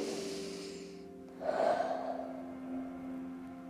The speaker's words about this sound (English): Bear took a few deep dragon breaths. Do it with me.